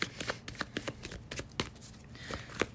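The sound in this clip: Tarot cards are shuffled and drawn, with many crisp, quiet snaps and riffling flicks coming in an uneven rhythm.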